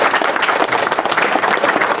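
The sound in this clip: An audience at a Jewish community gathering applauds, producing dense, loud, continuous clapping throughout.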